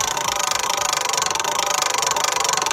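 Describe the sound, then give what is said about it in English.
A spinning prize wheel makes a fast, even run of clicks as its pointer ticks past the pegs, holding a steady, rapid rhythm throughout with no voices. “So wheel is in place. I'm not going to muck around today. Let's spin the wheel.”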